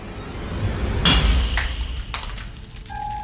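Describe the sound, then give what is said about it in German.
A small glass flask filled with liquid falls to the floor of a school entrance hall and shatters in one sharp crash, followed by a few fainter tinkling fragments. “Wie aus dem Nichts fällt in der Eingangshalle ein kleiner, mit Flüssigkeit gefüllter Glaskolben zu Boden und zerschellt.”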